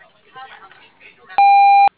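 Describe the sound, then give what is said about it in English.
A voicemail tone sounds once at the end of a recorded greeting: a single loud, steady, pure-toned beep lasting about half a second, coming just after the greeting voice fades. “Otherwise, please leave a message at the tone with a return phone number and we will get back to you.”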